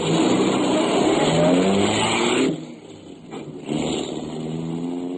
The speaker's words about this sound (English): I drove off